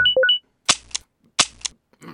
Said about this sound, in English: Shoot them down! At once, sir.